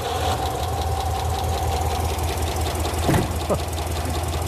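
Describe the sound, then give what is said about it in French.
A rough-running old V8 engine idles on only four cylinders, one side of its fuel supply dead, giving a steady loud low rumble with an uneven, pulsing beat and a few brief sweeping noises partway through. “Pas terrible, ça. Non, pas pour un V8. On dirait qu'il tourne sur 4 ou 5 cylindres.”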